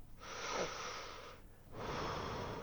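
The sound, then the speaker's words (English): Deep breathing in and out during a chest exam of a patient with congestion: two long, rushing, breathy airflow sounds separated by a brief pause, heard alone. “Breathe in. And out. Again.”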